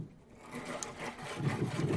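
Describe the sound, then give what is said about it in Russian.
A small hand saw cuts a groove, faint rasping strokes that grow a little louder and more regular toward the end. “Я сейчас еще чуть-чуть сделаю, чтобы она чуть поглубже была. Но вот уже наша пилка за нее цепляется.”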